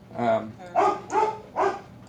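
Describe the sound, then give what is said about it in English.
A dog barks several times in loud, sharp bursts, each with a strong tonal core, spaced unevenly across about two seconds. “I'm going to let the dog out so I don't have to listen to him.”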